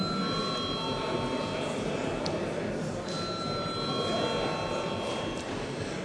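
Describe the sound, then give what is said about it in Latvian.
An electronic chamber bell rings in the Latvian parliament to call members to a vote, a steady, sustained high ringing tone with a brief break partway through, over low room noise. “Lūdzu zvanu.”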